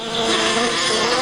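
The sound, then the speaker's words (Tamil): Bees buzz in a garden, a dense, steady hum of many wings that stays loud and even throughout the short stretch, with no talk. “அது அது தேனி பறக்கிற சத்தம் போல இருக்குதே.”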